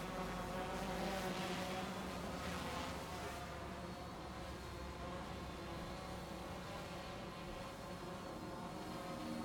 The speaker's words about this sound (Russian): Около здания летает дрон.